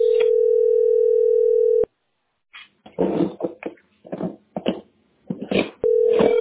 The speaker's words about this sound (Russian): Я звоню.